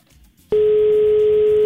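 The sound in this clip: A telephone tone from an outgoing call to a radio listener that goes unanswered: after a short quiet moment, a loud steady single-pitch tone sounds unbroken to the end.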